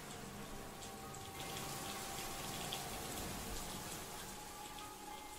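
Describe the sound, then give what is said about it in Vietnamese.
Heavy rain falls over a village during a storm: an even, continuous wash of hiss and patter from falling drops, soft throughout, with no voices. “Cả làng quê chìm nghỉm trong mưa mù, gió bão.”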